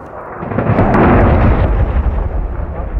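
Airstrike explosions during a city siege: a heavy boom swelling into a dense, sustained low rumble that rolls on for several seconds, with sharper cracks near the start and no voices.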